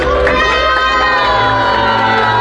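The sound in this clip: Crowd cheering and children shouting as a red ribbon is cut at a school opening, a loud, dense, continuous roar of voices that holds steady throughout.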